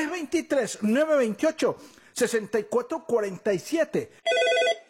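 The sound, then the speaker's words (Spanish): Telephone ringing with an incoming call to a live call-in program: a short, trilling electronic ring burst comes at the very end, right after continuous talking. “Ya tenemos una llamada al aire.”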